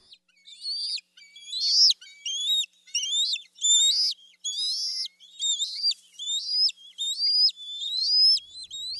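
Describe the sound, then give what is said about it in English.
Juvenile eagles begging for food: many high, thin, whistling calls with sharp upward inflections, repeated in a steady, insistent series of loud bursts with short gaps between them. “We do have some sounds here of eagles, and here are some juveniles begging for food.”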